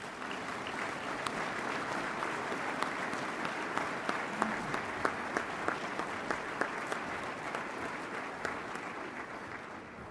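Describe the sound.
Applause from an audience in Omaha welcoming a speaker to the program: a dense, steady wash of many hands clapping for about ten seconds, with sharper individual claps popping out above the crowd.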